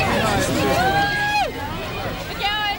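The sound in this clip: Party crowd chatter from a bachelorette party inside a closed steakhouse, heard from the flat upstairs: a steady, dense babble of loud voices with raised, sliding shouts throughout.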